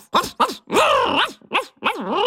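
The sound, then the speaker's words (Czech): A boy imitates a dog barking with his voice, giving five loud voiced barks: three short yaps and two longer, drawn-out howling ones. “Lukáš kývl a rozštěkal se.”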